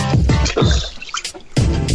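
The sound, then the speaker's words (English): Running water splashes and trickles as hands are washed under a tap, with a couple of louder splashy bursts separated by a quieter stretch of dripping and trickling. “Hold on, I'm just washing my hands.”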